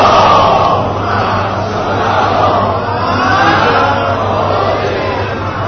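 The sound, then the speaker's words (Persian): An audience recites salawat together in unison, forming a loud, continuous mass of many voices that holds steady throughout. “انشاءالله خدا از همه قبول کنه. صلواتی ختم نمایید.”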